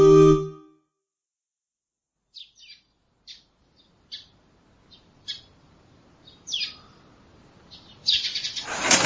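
Birds chirp in the morning air, first as sparse, short, high tweets spaced apart, then as a denser, louder flurry of chirps at the end, after a brief tonal sound at the very start.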